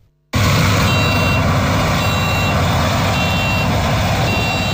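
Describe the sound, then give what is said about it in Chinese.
Three driverless combine harvesters working together in a grain field at a smart-farming demonstration farm in Heilongjiang, giving a steady, loud machinery roar with a high warning beep repeating at regular intervals over the constant drone. “在黑龙江双鸭山北大荒集团红卫农场智慧农业示范区，3台无人驾驶收割机正在田间协同。”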